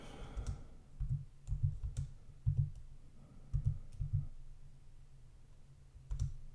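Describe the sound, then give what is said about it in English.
Soft clicks and taps of typing on a keyboard to search online, in irregular clusters separated by short pauses. Fairly faint, with no talking. “trying to type this out.”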